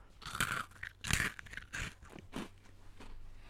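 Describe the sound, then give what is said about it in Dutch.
Faint crunching as someone chews a crunchy kruidnoot spice biscuit, several crisp bites and grinding chews in an uneven rhythm, quiet and alone. “Pak er inderdaad eens even gewoon een kruidnootje bij. En proef ook lekker een kruidnootje”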